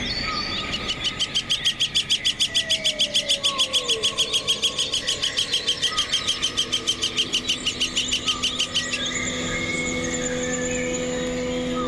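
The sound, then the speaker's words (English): A flicker, or golden-winged woodpecker, gives its flicker-flicker call: a long, rapid series of many evenly spaced, high, sharp notes that holds steady and loud for about eight seconds, then breaks off. “The flicker, or golden-winged woodpecker, has a variety of notes, but reserves its flicker-flicker call until two birds are together.”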